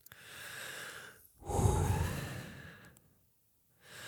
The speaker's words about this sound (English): Then we just take 3 deep breaths.